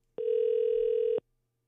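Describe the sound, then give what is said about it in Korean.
A telephone ringing tone plays while a call connects, one steady mid-pitched electronic burst lasting about a second and then cutting off, with no voices. “자 신호 갑니다. 자 오늘 마지막 통화 될 것 같아요. 자 신호 가고 있습니다.”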